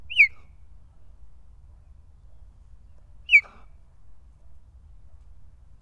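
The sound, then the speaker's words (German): Cheetah chirping call, a bird-like cry much like a sparrow's. Two short, high-pitched chirps sound a few seconds apart, with another starting right at the end, each alone against a quiet background. “man würde vielleicht glauben, das ist ein kleiner Vogel, ein Spatz, aber dem ist nicht so. Das ist eine Katze, eine Raubkatze, und zwar ein Gepard.”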